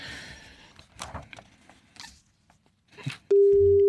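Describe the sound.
Telephone ringing tone on an outgoing call: after a stretch of quieter, uneven sounds, a loud steady single-pitched tone starts abruptly near the end and holds without a break.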